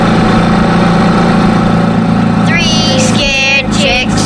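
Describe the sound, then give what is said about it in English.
A loud ATV engine runs with a steady, heavy idling rumble and vibration throughout, holding a constant level from start to finish. “Her ATV was loud, and the tires was humongous.”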